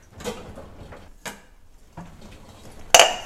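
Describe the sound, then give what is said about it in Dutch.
A small bowl placed onto a hot frying pan: a few soft knocks and rustles, then one sharp, bright clink near the end. “Ik pak een kommetje en ik leg hem hierop.”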